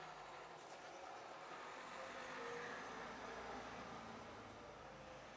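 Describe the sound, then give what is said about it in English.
A postman's van driving past, heard as a faint, steady engine and road rumble that swells gently around the middle and then eases off slightly. “There's somebody driving a postman's van around now.”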